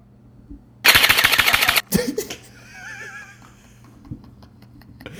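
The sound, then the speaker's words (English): An electronic airsoft gun fires a rapid full-auto burst of many sharp, evenly spaced shots lasting about a second, followed by a few louder thumps and a wavering high-pitched cry from a voice. “"Hey, shoot me with the airsoft gun" type videos. And I didn't know that it was an electronic gun.”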